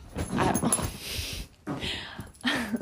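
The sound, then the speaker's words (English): A dog whimpers and whines in a run of uneven bursts, breaks off briefly midway, then returns with a steadier, higher whine near the end. “my dog's crazy, aren't you, bud?”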